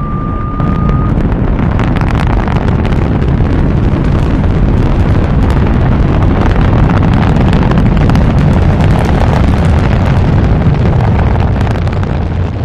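Rocket blastoff sound effect: a loud, dense, continuous roar and rumble that holds at full strength without a break throughout.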